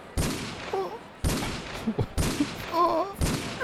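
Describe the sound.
Repeated shotgun blasts, four loud, sharp booms spaced about a second apart, each with a quick harsh attack and a short decaying tail.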